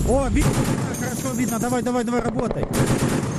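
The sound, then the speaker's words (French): An artillery unit fires rapid bursts of gunfire at a drone at night, loud, sharp repeated shots with voices heard shouting between and over the bursts. “Sur ces enregistrements réalisés par les artilleurs, on aperçoit l'unité en action. Les balles fendent la nuit par leur lumière orange vers le drone en mouvement.”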